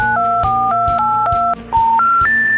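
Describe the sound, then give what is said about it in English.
Touch-tone beeps dial a telephone number in a rapid, nearly unbroken run, stepping between paired pitches. A brief dip comes near the end, then the last few tones finish the sequence alone. “Jay, go ahead and dial that number we gave you.”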